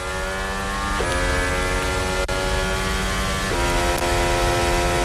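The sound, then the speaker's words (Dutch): Onboard engine sound of a Formula 1 racing car during a qualifying run: a loud, sustained, buzzing whine rich in harmonics, with brief pitch dips at two moments, and no voices. “Onboordgeluid komt van Liam Lawson.”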